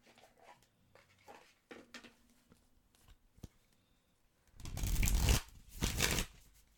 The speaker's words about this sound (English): But I do think we should pull cards